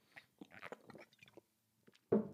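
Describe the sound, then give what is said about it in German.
A quick sip of a drink: faint wet mouth clicks and small slurping sounds, then a brief pause and a sudden louder burst at the end. “Ich muss, ich muss trinken, bevor ich, warte, ich muss kurz einen Schluck trinken.”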